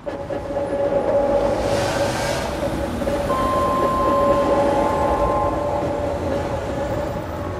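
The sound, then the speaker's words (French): A train travelling at speed shortly before arriving at the station in Metz, with a steady, continuous rolling rumble and a sustained tonal whine riding above it, loud and even throughout. “dans quelques instants, notre train entrera en gare de Metz”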